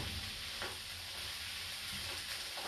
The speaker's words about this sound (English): I'm a bit nervous, I think, cooking my first curry for you guys.